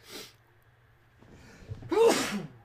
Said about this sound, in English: Oh, I feel like I have to sneeze.